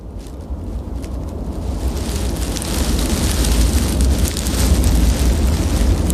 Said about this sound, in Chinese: 风呼啸，考验着其他动物的生存极限。